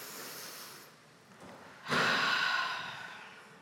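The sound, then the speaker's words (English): An audience drawing a deep breath in together during a worship service: a broad, airy inhale swells up suddenly after a quieter pause, holds briefly, then fades gradually, with no speech. “So let's just take a deep breath in together.”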